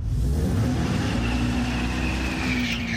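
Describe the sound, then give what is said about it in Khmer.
Synthetic engine roar from a new electric Dodge Charger, an artificial sound made to imitate a gasoline engine, holding as a loud, steady, low droning rumble throughout with no talk. “សំឡេងនេះដូចជាសំឡេងម៉ាស៊ីនរថយន្តធម្មតាអញ្ចឹងប៉ុន្តែអ្វីដែលធ្វើឲ្យរថយន្ត Dodge Charger ប្រភេទថ្មីដំណើរការមិនមែនម៉ាស៊ីនដើរដោយសាំងនោះទេនេះគឺជារថយន្តអគ្គិសនីមួយ”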